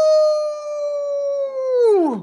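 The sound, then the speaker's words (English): A person imitates an old dog werewolf howl: a loud, sustained, tonal wail held steady for nearly two seconds, then dropping sharply in pitch as it ends. “So this is going to be my old dog werewolf howl.”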